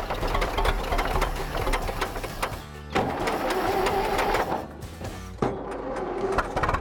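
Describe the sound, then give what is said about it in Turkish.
A big, very old-fashioned engine runs while warming up, giving a busy, rapid mechanical clatter with brief dips and restarts in its fairly loud, steady rattle. “Bu kocaman eski bir motor, öyle değil mi? Çok çok eski usul.”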